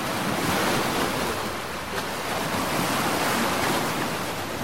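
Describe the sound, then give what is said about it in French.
Rough waves on the Norwegian Sea make a continuous, dense roar of surf and wind. It stays steady and loud throughout, with no voices. “La mer de Norvège est agitée.”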